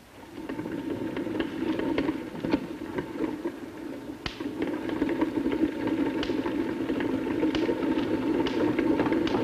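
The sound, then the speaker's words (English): A small hand-cranked belt electrostatic generator runs with a steady low whirring hum, while sharp crackling snaps from sparks jumping between a wire mesh and a metal ball break through at irregular moments. “You can see that as I slowly rotate the crank, this belt is moving. And then if I rotate the crank a little faster, you will see a spark jumping between this wire mesh and this ball over there.”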